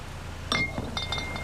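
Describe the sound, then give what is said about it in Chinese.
Glass clinks and rattles as a bottle of high-proof liquor is handled and opened, giving a bright knock and a few faint ringing taps over a low steady background. “酒可以开吧？ 可以。高度的。”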